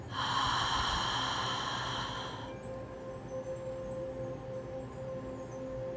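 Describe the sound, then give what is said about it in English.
A deep breath exhaled through the mouth, a steady airy rush lasting about two and a half seconds before it gives way to quiet background. “And let's take a deep breath in together. And exhale through your mouth.”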